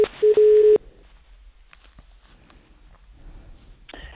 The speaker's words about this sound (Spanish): a ver si puedes hacer llamada y contactamos con